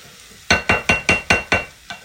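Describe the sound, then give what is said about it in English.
A spoon stirs minced meat browning in a pan for mince and tatties, making seven quick, evenly spaced scraping strokes, each a bright clink that fades fast, over a faint sizzle. “Now we'll let that mix around a little bit before we add a touch of Worcester sauce. Once the meat is browned a little bit.”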